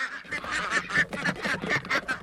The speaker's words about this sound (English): Morgan Gold heads to what he calls the quack house to let out his flock. Release the quackers!